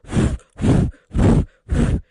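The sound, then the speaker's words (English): A voice imitates sharp breaths snatched between flute notes by someone playing badly: four loud, evenly spaced huffing gasps, each about a third of a second, separated by short silences. “But no, every note that you'd have to do, I'd take a breath for it. I'd be like,”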